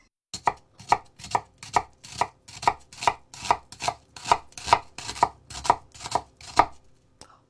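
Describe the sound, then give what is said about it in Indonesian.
A knife finely chops an onion in many crisp, evenly spaced strikes at a steady pace, heard alone without talk. “Pastikan mencencangnya dengan halus. Bawang dipotong 2 secara memanjang. Iris tipis memanjang, lalu iris lagi melebar sehingga menghasilkan cencangan yang kecil-kecil.”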